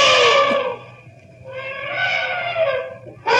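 An elephant trumpeting as it charges: two long, loud, brassy blasts with a brief dip between them, then the sharp start of another call.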